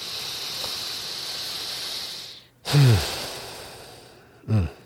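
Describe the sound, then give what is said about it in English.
A deliberately taken breath, heard as a loud, breathy rush after a steady hiss cuts off, then a second, shorter breath near the end, with no talking. “Yes, let's take a breath to that.”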